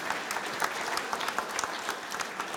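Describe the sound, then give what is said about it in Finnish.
Applause at a Finnish medal ceremony: a dense patter of handclaps with irregular sharp peaks that stays at a fairly even level throughout. “Kyllä, kiitos. Aplodeja.”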